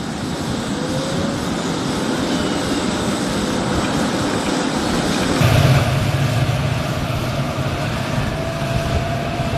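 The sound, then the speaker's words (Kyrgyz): An airplane arriving at an airport gives a steady, broad engine roar that turns louder and deeper about halfway through and then holds, with no voices. “Сайчи Ван Йи катарлуу коштоп келгендер бир учак менен жетип келди.”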